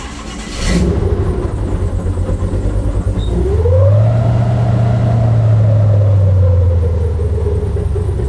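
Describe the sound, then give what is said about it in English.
An airboat's huge engine drives a large propeller with a loud, steady drone. About three seconds in it swells, its tone climbing, then holds a strong low hum for several seconds. “Das heißt, das ist ein riesen Propeller an einem riesen Motor und entsprechend laut ist das Ganze.”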